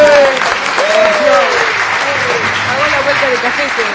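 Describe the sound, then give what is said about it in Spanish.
Applause and an ovation for a coworker's birthday: steady, dense clapping with cheering voices mixed in throughout, loud and sustained without a break. “¡Ovación!”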